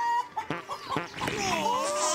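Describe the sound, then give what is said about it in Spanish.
A chicken clucks and squawks in a few sharp, abrupt bursts, then lets out a longer, warbling cackle that runs to the end. “¡No, qué gallina de porquería!”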